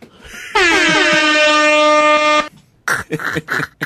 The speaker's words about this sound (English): What's the name of that horn? I just Googled DJ horn. I don't think it's the scientific name for it.